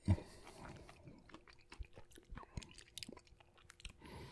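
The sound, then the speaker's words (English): Someone eating an orange, with many soft, wet chewing and biting sounds in an irregular rhythm. The mouth noises are faint and close, and no one talks. “is the appeal literally me eating a fucking orange”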